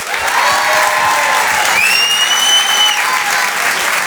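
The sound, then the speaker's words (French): A comedy club audience claps loudly and steadily throughout, a thick wall of applause with a shrill whistle cutting through midway. “Faites un maximum de bruit s'il vous plaît pour Oda Sama.”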